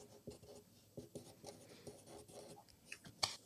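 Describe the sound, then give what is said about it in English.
Pen scratches on cards as someone handwrites answers. Quick, faint, irregular strokes and scrapes tick along in a busy rhythm, with no talking. “So we're going to write these ones down. Thank you. That's where the handwriting comes into play, right?”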